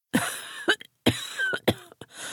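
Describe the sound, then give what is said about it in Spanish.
A man with a deep voice coughing in a fit while feeling ill with tightness in his chest: a few harsh, raspy bursts in quick succession with a rough, wheezy tail, ending on a fainter cough. “«Creo que no me encuentro muy bien», gimió el ruso con voz cavernosa que se interrumpió por un ataque de tos.”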